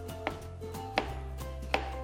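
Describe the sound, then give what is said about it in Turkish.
Knife chopping a banana: three sharp, distinct cuts spaced about three-quarters of a second apart, each a crisp tap against a steady low background, with no talking. “Hemen muzumuzu da doğrayacağız.”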